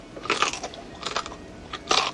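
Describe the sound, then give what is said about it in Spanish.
Crisp crunching as someone bites into fried bread, a few loud bites separated by short pauses of quieter chewing, with no talk. “eso sí lo he fritito y te lo doy, mira, para que te lo vayas comiendo.”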